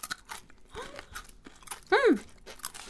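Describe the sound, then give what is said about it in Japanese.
Crisp crunching as thin-sliced, deep-fried lotus root chips are bitten and chewed, a few sharp crunches followed by a short murmured voice. “パリッパリ本当にすごい薄いレンコンにねスライスされててこれ素揚げしてるってことですね”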